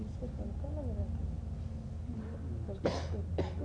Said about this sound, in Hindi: खांसी